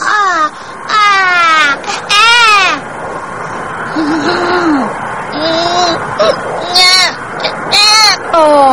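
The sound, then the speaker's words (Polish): A small baby cries in repeated wailing bursts, the pitch rising and falling in each one, with a voice talking at points in between. “Nie płacz. Nie płacz, malutki.”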